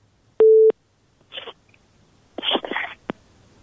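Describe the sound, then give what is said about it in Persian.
A telephone tone sounds when a call-in to a radio show fails to connect: one short, steady beep rings out in near silence, followed by a few brief, faint crackling bursts of line noise. “بله متاسفانه تماس ما درست برقرار نشد”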